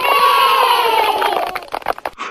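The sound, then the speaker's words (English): Cheering and shouting from a studio audience of about 25 children. A sustained shout sags slightly in pitch, then breaks into choppy bursts of voices. “So 25 kids here sitting in the background. They've increased my audience fivefold, so you got a big audience.”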